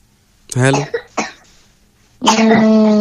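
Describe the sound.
A man coughs harshly, a few voiced, throaty bursts: two short ones close together, then a longer, rougher cough after a brief pause.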